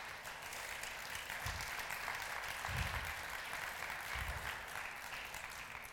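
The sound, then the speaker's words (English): Applause from an audience welcoming a speaker to the platform at a religious meeting: a steady, dense wash of clapping that holds at an even level for the whole stretch, with no voices over it. “Let's applaud the Lord Jesus Christ. Alco, up you come, pal. Let's give Alco a big welcome to the platform.”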